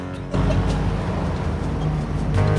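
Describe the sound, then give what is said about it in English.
A car engine drones steadily as the car drives along a desert road. The low, level rumble starts after a brief quieter moment and holds unchanged to the end. “Presently, Bert's driving along a desert road.”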